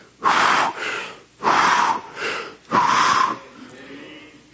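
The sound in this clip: A man's voice imitates breathing into someone's mouth, blowing three long, forceful, rushing breaths in an even rhythm with short pauses between them, then a fainter trailing breath at the end.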